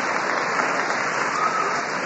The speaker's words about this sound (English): I'm very grateful about the applause, but you know about the clock